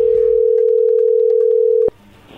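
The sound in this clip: A telephone line tone sounds as a call comes in: a steady, loud single-pitched hum lasting almost two seconds, then cut off abruptly by a click, leaving a faint low background.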